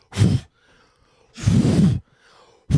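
Strong puffs of breath blowing cut hair off the back of a neck after a haircut: three loud, breathy bursts, the last cut short, with near silence between them.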